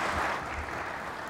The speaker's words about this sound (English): Yeah, you can clap, that's fine.